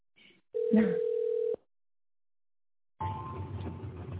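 A telephone line tone on a call to a busy subscriber: one steady electronic beep lasting about a second, then a gap of silence, then a stretch of rough noise.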